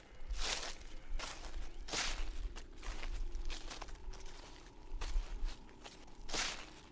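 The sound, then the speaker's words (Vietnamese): Footsteps rustling over dry leaves in a garden, a few faint, irregularly spaced crunching steps with soft crackling between them. “vang lên có tiếng chân người đi bộ, loạt xoạt dẫm lên lá khô.”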